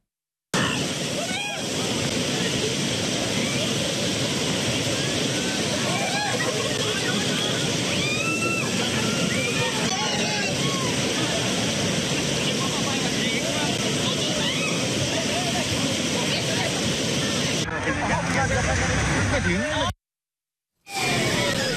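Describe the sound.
Rushing white water roars along Khlong Song Phraek stream in Phang Nga, swollen in the rainy season, as rafts run its rapids; a loud, unbroken wash of turbulent noise that cuts out in brief gaps near the end.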